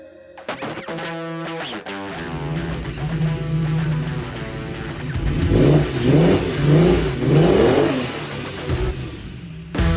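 A car engine revs hard, starting from a rough idle, then pulling up into a series of loud, rising and falling throttle blips in quick succession, with a steady engine drone underneath throughout.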